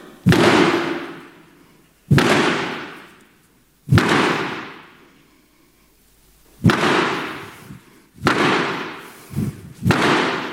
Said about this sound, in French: Et les six coups, c'est donc trois coups pour l'un et trois coups pour l'autre des théâtres réunis. Donc, je vais essayer, éloignez-vous, je vais essayer de le faire.